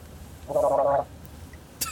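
Coffee slurped to pull air through it, as in wine tasting: one gurgling, bubbly slurp lasting about half a second, followed later by a brief sharp click.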